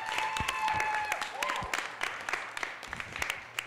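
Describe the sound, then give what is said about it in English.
Applause and whoops rise from a youth worship gathering to celebrate the worship crew. Individual claps stand out as sharp, uneven hits at a moderate level, with a few high cheering voices near the start. “Can we make some noise for worship crew?”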